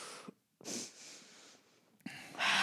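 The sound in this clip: A person inhaling smoke makes faint, breathy, hissing intakes, three rough bursts separated by brief pauses, with the last one the strongest.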